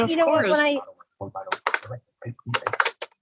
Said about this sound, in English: Now I know what you mean about your clicking keyboard. Yeah. You can hear my keyboard right now.